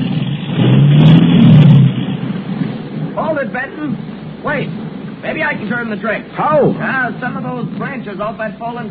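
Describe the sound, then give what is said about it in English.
Car engine revving with its left rear wheel stuck in mud up to the hubcap; a loud, low roar swells at the start, then eases into a steady rumble while people talk over it. “Sounds as if we're stuck. I'll say we're stuck. How far am I in, Kemp? Your left rear wheel's up to the hubcap in mud.”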